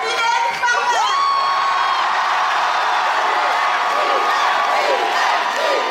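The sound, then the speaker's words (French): Fans erupt in shrill screams, whoops and cheering at the Grand Rex as Mylène Farmer appears on stage, a loud, sustained roar of many high voices with rising whoops early on, holding at full intensity throughout. “Pascal Laugier arrive sur scène, puis les deux actrices, et dès qu'arrive Mylène Farmer, le Grand Rex explose.”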